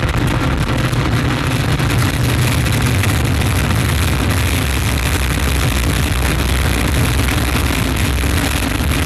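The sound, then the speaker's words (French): Rocket liftoff roar as the Vulcain main engine and the solid boosters ignite: a dense, loud, steady rumble with heavy low end that holds without break for the whole span. “Top, allumage Vulcain. Allumage confirmé. Top, allumage UAP, décollage.”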